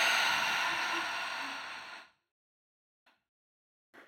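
A long, deep exhale during a guided breathing exercise, a steady breathy rush lasting about two seconds before fading. Quiet follows, broken by two faint, brief breath sounds.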